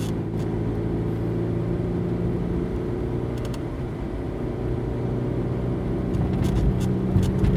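A car driving along a road gives a steady low engine drone with a rumbling hum that stays at an even level throughout, with no talking.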